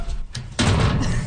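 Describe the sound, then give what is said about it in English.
Several people open lockers fitted with shelves. A solid metal clunk lands near the middle, followed by continuous rattling and handling noise, fairly loud. “So that's us all opening our locker.”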